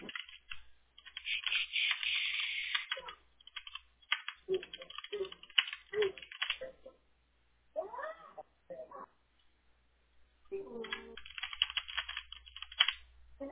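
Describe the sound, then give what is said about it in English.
Typing and clicking on a computer keyboard while copying and pasting text, heard as bursts of rapid, thin keystrokes separated by pauses, fairly faint and muffled overall. “I'm going to copy and paste all the subcategories in your vertical too.”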